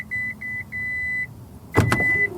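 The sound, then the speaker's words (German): An electric tailgate on a Korean test car opens hands-free after someone stands behind it: a few evenly spaced beeps, then a sharp latch clunk and a steady tone with a whirring motor. “Bei unserem Testwagen lässt sich die Heckklappe elektrisch öffnen und dafür musst du nicht mal nach dem Knopf auf dem Schlüssel suchen.”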